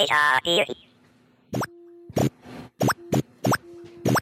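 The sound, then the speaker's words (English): Electronic sound effects from the original Q-Bert video game on the Atari 2600. A garbled, voice-like synthetic burst comes first, then six short bleeps with quick upward pitch sweeps, separated by a steady low tone. “That is the sound of Q-Bert, the original Q-Bert game from Atari, from the Atari 2600.”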